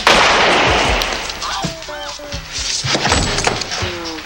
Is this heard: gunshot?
yes